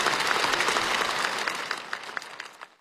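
Applause for newly elected Vice President Wang Qishan at the national congress: dense, steady clapping from a large crowd that thins out and fades at the end.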